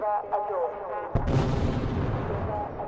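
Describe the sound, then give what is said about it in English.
Rockets launched from Gaza and intercepted by Iron Dome missile defense in the sky before dawn: a sudden loud blast about a second in, followed by a sustained roaring rumble, with a voice heard just before. “Gaza, before dawn on Monday, rockets from Gaza launched and intercepted by Israel's Iron Dome in the sky”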